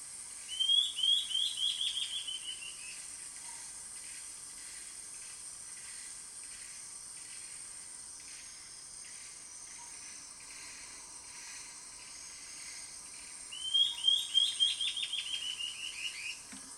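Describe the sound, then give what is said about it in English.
Call of the white-cheeked antbird: two bursts of quick, high chirping notes, one near the start and one near the end, separated by a long stretch of steady hiss. “So here's the call of the white-cheeked ant bird.”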